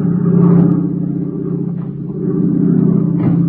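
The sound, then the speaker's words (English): A faulty aircraft engine drones in flight as the plane loses altitude: a low, heavy rumble that dips in loudness midway, then swells back to a steady roar. “Hey, did you hear that? Sounds like a bum motor.”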